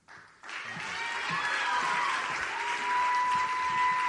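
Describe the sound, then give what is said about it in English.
Applause and cheering from an audience at an NFL team's breast-cancer awareness event honoring contestants. It bursts in after a brief quiet moment and holds as dense, steady clapping with no break. “And keep the applause going and cheers for contestants 41 through 50.”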